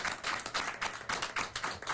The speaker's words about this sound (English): we can also give him a round of applause